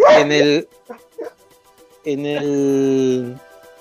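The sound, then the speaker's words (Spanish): A dog vocalizes as it comes over to greet someone: a loud, short, whining bark, a few faint brief sounds, then a long, sustained, whining howl before it stops. “mientras mi perro me viene a saludar”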